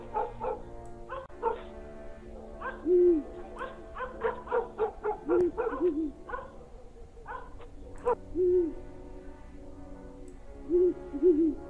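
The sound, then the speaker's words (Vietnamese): A barn owl's eerie night calls in a village sound as a few wavering, low cries scattered among many short, loud dog barks and yelps, with no talking. “tiếng chim cú lợn nó cứ rú lên khèng khẹt khèng khẹt, ghê lắm.”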